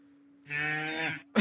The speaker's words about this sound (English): That's a cow.